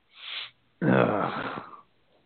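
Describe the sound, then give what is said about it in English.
A groan of disappointment at a fantasy football playoff draft: a short, breathy exhale, then a drawn-out, voiced moaning groan lasting about a second. “Just hear the groan.”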